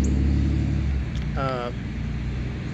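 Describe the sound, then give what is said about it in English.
A noisy truck passes by as a loud low rumble that fades over about a second, and a brief fragment of voice follows. “that was a noisy truck”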